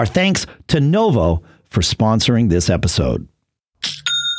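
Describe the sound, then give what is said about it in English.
An online store's sale notification chime rings once, a bright ding with sustained high ringing tones. It follows a stretch of spoken words. “There's that sound again. I love that sound because that is the sound of another sale on Shopify”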